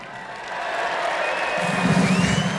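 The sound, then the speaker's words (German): Crowd applause and cheering at an arena rock concert in Cologne: a dense, continuous wash of clapping that swells slightly and stays steady throughout. “Applaus, dass wir trinken!”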